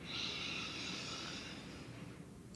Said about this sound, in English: Deep breath in.